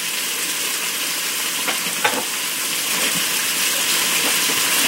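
Thin new carrots sizzle as they brown in a cooker, a steady frying hiss with a few small pops and crackles that grows slightly louder toward the end.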